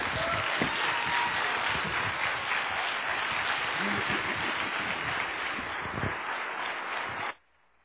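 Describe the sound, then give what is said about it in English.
Audience applause welcoming a speaker at a Southern Maryland gathering: a dense, steady wash of clapping that holds for about seven seconds, then stops abruptly. “give a warm Southern Maryland welcome to Sam Sullivan.”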